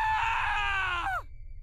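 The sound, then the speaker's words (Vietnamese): A single piercing scream: a long, loud, high wail that holds steady, then drops sharply in pitch and cuts off, followed by faint background noise. “Nhưng vừa bước đến bên thì một tiếng hét thất thanh vang lên.”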